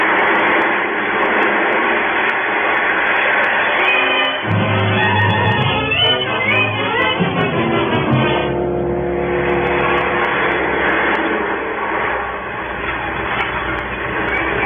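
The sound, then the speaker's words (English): Roller coaster ride: a loud, continuous rumble and rattle of cars running along the track, with surging, shifting tones throughout and no voices. “How long can a roller coaster ride last?”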